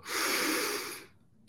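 A deep breath is drawn during a guided meditation, a loud airy rush lasting about a second before it fades away.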